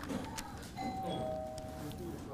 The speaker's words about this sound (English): That was the only bell.